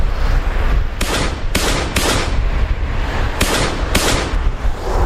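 Pistol shots ring out repeatedly during a street shooting on a busy main road: five sharp cracks in an irregular burst over constant loud noise, three close together, then a pause before two more.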